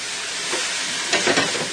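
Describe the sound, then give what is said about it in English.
Whole Spanish olives and sliced Kalamata olives sizzle as they sauté in a pan. A steady frying hiss swells into a few brief, louder bursts near the end. “I left the Spanish olives whole because they're tiny, and the Kalamatas are sliced. So that's about 3 ounces, 4 ounces of each. And you saute those for a while.”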